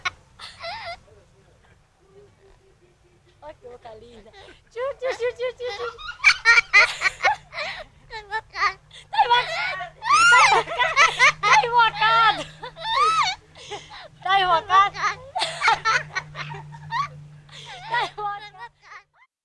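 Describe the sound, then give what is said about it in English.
A parrot and a girl laughing together in Bahia, Brazil, trading many bursts of high, bubbling laughter that grow busier and louder through the middle, with a low steady hum underneath in the later part. “I want to actually play a sound here that I know really resonated with you. It's the sound of a parrot and a girl laughing,”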